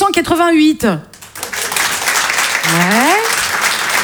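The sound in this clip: Audience applause at a stand-up comedy show: a talker's voice gives way to steady, dense clapping from the crowd that holds evenly to the end, with a brief voice rising over it.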